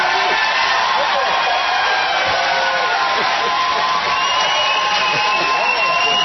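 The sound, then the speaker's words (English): A crowd gives a standing ovation after a political speech, with dense clapping and cheering that stays loud and steady for the whole stretch without a pause. Scattered shouts and whoops rise from the mass of sound. “Oh, look, they're standing in the audience. Okay. Standing ovation.”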